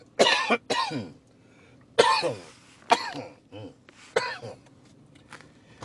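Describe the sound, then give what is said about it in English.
Coughing from choking on pork skins just eaten: several harsh, loud coughs in uneven bursts, some close together, with short gaps and throaty rasps between them. “Y'all, excuse me. I just ate some skins. They choking me right now.”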